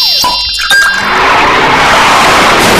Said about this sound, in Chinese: 这是开车。这是车祸。